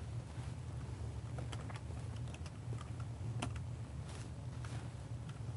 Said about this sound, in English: I'll just type it in now.